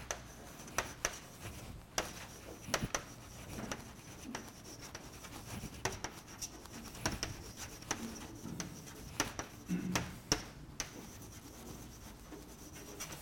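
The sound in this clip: Someone writes down the final result of a derivation about volume-change energy, a faint run of irregular scratching strokes and sharp taps that goes on steadily.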